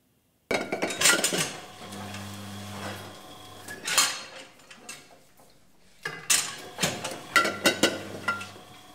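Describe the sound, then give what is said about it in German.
Wine bottles clink and rattle at a winery on an old manor estate, with many sharp glassy chinks in uneven bursts and a faint low hum at times. “Und dann am Ende des Tages, wenn es dann hier klirrt, ist es ein gutes Zeichen. Das heißt, man hat irgendwas Vernünftiges in die Flasche gebracht.”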